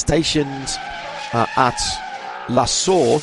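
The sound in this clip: Race cars from TV highlights of Spa 24 Hours restarts whine and screech in the background, with engine roars and tire squeals rising and fading beneath continuous talking.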